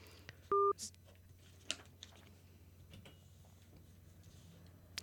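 A telephone dialing tone sounds as a call is placed: one short, steady two-pitch beep, followed by scattered faint clicks and taps.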